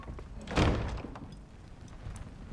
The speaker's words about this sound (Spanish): La Guardia Real cierra las puertas.